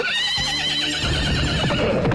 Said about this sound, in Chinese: 那马一机灵，一声哀鸣，抬腿向前狂奔。